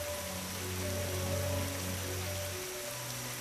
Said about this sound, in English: Rain. Raindrops creating hundreds of circular ripples.